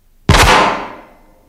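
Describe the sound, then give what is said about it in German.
A single gunshot sound effect in a German radio play fires with one sharp, loud crack, and its bright tail fades out over about a second. “Ein Schuss ist gefallen?”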